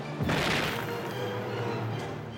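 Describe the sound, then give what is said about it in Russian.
A grenade bursts close by amid a wartime battle in which Red Army soldiers charge fascist lines: one sudden, loud blast that swells into a long, rough roar, fading slowly over a low, steady hum. “Совсем близко разорвалась граната.”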